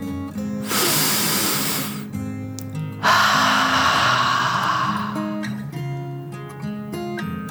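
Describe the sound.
A deep, slow breath drawn in and then let out: two long breathy rushes, the inhale followed after a short gap by a fuller exhale, over a soft bed of sustained tones.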